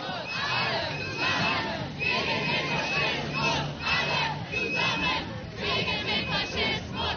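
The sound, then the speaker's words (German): Protesters chant a protest anthem beside the AfD party congress hall: a large crowd sings rhythmic, repeated phrases that swell and fall, loud and sustained throughout. “Neben der Parteitagshalle eine große Protesthymne.”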